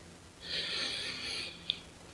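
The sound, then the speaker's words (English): A single deep breath drawn in by one person, a soft, airy inhale lasting about a second, faint and alone, followed by a tiny click. “take the usual deep breath”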